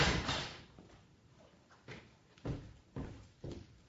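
A door being opened: a run of short wooden clunks and rattles over a low background rush, several of them sharp and evenly spaced toward the end.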